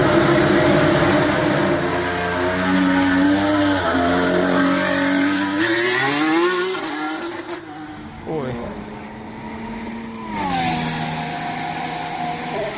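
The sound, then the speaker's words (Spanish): A Formula 1 car's engine (Alpine, an evolution of last year's unit) screams at high pitch, repeatedly climbing and then dropping sharply as it changes gear, staying loud and continuous throughout. “Pero el sonido del Alpine es este que te voy a poner ahora mismo, lo lleva Esteban Ocon ayer mismo. Vamos a ver cómo suena.”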